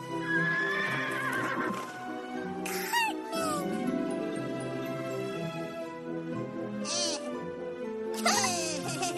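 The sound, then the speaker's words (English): A horse whinnies a few times while being ridden through a meadow, its shrill, wavering calls rising above a steady, layered tonal backdrop. “he's on a horseback riding through the meadow.”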